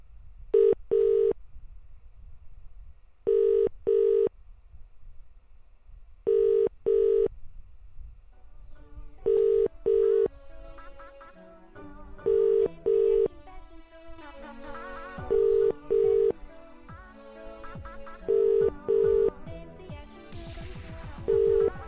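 Telephone ringback on a UK phone call that goes unanswered: seven paired beeps at an even, steady cadence, with fainter mixed sounds underneath from midway on.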